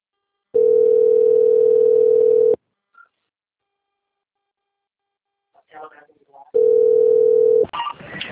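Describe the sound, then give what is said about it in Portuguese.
A telephone line tone plays while a call is transferred to another city. Two long, flat, steady tones are separated by a pause, with brief speech between them and again after the second tone. “Agora eu vou pedir para o senhor aguardar na linha, que eu vou passar a ligação para São Paulo”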